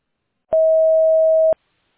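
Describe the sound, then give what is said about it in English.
A voicemail recording tone: one loud, steady, pure mid-pitched tone lasting about a second, with silence before and after. “Record your message at the tone. Press any key or stop talking to end the recording.”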